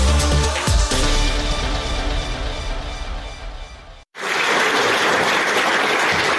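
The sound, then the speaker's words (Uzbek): Thunderous applause from a full house at Ilhom Theatre, loud and dense, bursting in after a brief break that follows a passage of music. “Anshlag va yuldiroz qarsaklar.”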